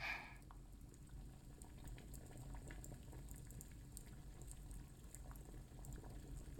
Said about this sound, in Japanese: 炭の燃えるいい音がします。鉄瓶のお湯が沸く音も。